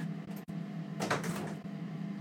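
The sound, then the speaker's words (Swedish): Faint sounds of a door being opened: a couple of soft clicks, then a brief muffled rush of movement over a quiet steady hum, with no talk. “Jag ska öppna dörren igen.”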